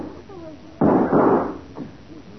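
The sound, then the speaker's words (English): Gunshots fired toward the bushes crack out as a couple of loud bangs in quick succession, followed by a fainter pop, over a low background murmur. “They're shooting at us. Oh, yeah? Well, two can play that game. Shots were behind those bushes over there, Matty. Right. I'll smoke them out.”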